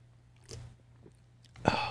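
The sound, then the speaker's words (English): Someone sips Salted Caramel Porter beer from Pigeon Hill Brewing Company. A few faint, soft mouth sounds lead up to a louder sip or gulp near the end. “But this is the SCP Salted Caramel Porter, which I think was sent around last year around Christmas time from Pigeon Hill Brewing Company. And I can tell you that after taking a sip,”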